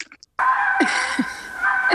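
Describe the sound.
Fox screaming in breeding season: a couple of short faint calls, then one loud, harsh, drawn-out scream with a raspy, wavering tone that lasts over a second.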